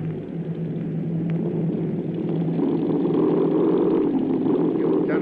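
Airplane engines drone steadily through a forced landing, a loud, continuous low rumble that thickens and swells slightly in the second half with no breaks.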